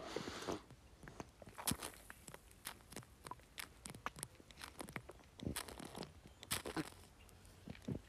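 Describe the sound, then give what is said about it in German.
Sipping and swallowing from a glass of after-work beer: a quiet run of small wet clicks, gulps and smacks at an uneven pace, with no talking. “Da muss ich jetzt schnell einen Schluck von meinem Feierabendbier nehmen.”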